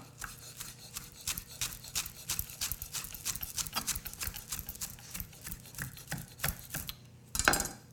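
Quick knife chops through a bundle of fresh parsley, many crisp, sharp taps in a steady, rapid rhythm, ending with a louder, rougher scrape.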